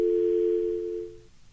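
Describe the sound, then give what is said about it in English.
A dial tone sounds on a Jitterbug phone, which is not a smartphone. The single steady, mid-pitched tone holds evenly for just over a second, then cuts off, leaving faint background hum. “Oh, we're dialing their station and seeing Michael's if we can jitterbug phone. This is not a smartphone.”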